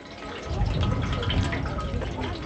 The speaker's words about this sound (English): An old woman fills up a bucket with water from a dripping tap to give to her cow.